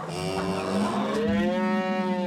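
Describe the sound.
Cows moo as they come out through gates to drink at a well. One long, continuous low moo has a rich harmonic tone, and its pitch rises in the second half before it holds loud to the end.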